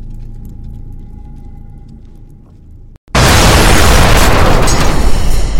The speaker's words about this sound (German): Treffer, zweites Geschütz ausgeschaltet